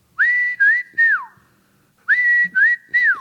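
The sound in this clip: Whistling from a trash can statue in Pilot Mountain, NC, heard as its back hatch opens: six loud, clear whistled notes in two groups of three. Each note glides up, holds steady, and the last note of each group falls away.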